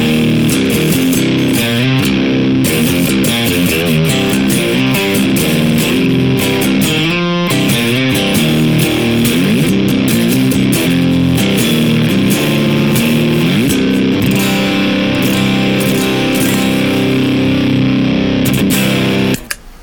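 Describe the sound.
An overdriven electric guitar plays a reference tone through an Angry Alpaca pedal and a Nobleman Overdrive into a Marshall Silver Jubilee 4x12 cab loaded with Vintage 30 speakers. Loud, gritty chords and single notes ring out continuously, then cut off at the end.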